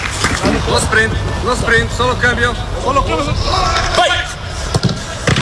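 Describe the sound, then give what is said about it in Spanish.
A football training session at Valdebebas, with voices calling and shouting instructions over a busy background and a few sharp thuds of ball contact, the strongest near the end. “como la radio es sonido, este es el sonido de Mourinho entrenando hoy en Valdebebas.”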